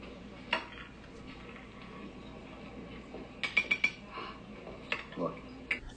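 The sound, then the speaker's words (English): Caviar is scraped off a serving dish: a utensil clinks and scrapes against the dish in a few quiet, short bursts, with a cluster of brighter clinks partway through and low voices in the background. “So he takes the caviar that's sitting around this dish and literally scrapes the entire ring of caviar off of the dish.”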